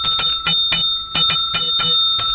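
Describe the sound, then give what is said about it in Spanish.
Small bell rung rapidly many times in quick clusters, producing bright, high metallic dings with a lingering ring. The rings are loud and heard alone, with no talking. “Está la campanita loca ahí. Oiga, hay con campana y todo, ¿sabes? Con campanita y todo.”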